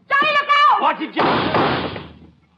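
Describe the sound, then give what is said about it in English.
A closet door in a bedroom is forced open after a voice speaks, producing one heavy slam-like thud that rings out and fades over about a second. “Stand back, Sheriff. I'm going to open it.”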